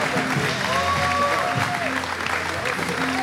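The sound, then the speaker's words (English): Applause from a standing church audience welcoming a guest pastor: a dense, steady wash of clapping throughout, with sustained tones underneath. “So can we, Melbourne and Sunny Coast, stand to our feet and put our hands together? Welcome, Pastor Paul Geerling.”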